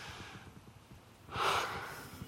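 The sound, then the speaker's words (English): A deep breath drawn in: after a quiet first second, one soft, airy inhalation swells and then eases off toward the end, with no words spoken. “Take a deep breath right now with me.”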